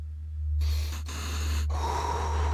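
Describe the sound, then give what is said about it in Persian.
A group takes a deep breath together: several loud, airy rushes of breathing in and out, each swelling and easing, over a steady low hum with no speech. “خیلی خب، همه نفس عمیق.”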